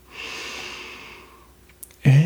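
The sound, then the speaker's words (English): A deep breath drawn in during a guided relaxation: a soft, airy inhale lasting about a second that fades gradually, followed by a brief pause before a louder sound cuts in at the end. “Relax your shoulders and then clench your jaw and follow your breath in”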